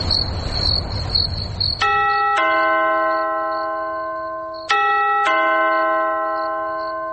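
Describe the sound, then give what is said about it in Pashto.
A two-tone doorbell chime rings twice in the middle of the night. Each ding-dong pair sounds clear and then fades slowly, after a hissing, insect-like buzz at the start. “د دروازې زنګ ووهل شو، ته اوس وګوره چې څوک دي.”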